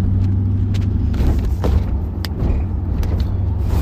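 Car driving, heard from inside: a constant low engine and road rumble that stays loud and even throughout, with faint small knocks and rattles and no talking.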